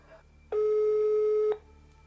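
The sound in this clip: A telephone line tone sounds while someone is being called: a single steady, mid-pitched electronic beep lasting about one second, clear and alone over a faint hum.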